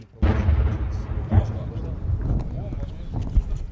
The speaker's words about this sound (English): local militia fighters rush in and fire a shot over our heads